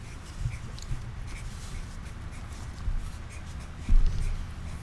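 Faint scratching of a pen writing a name on a card, soft uneven strokes with a few light thumps against a quiet background.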